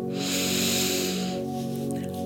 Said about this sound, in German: Atme tief ein